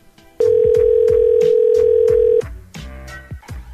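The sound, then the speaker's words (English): A telephone ringback tone sounds on an outgoing call to a supposedly disconnected number: one loud, steady mid-pitched tone lasting about two seconds, over a softer background of repeated low pulses. “Four rings? Why would there be four rings for a disconnected number?”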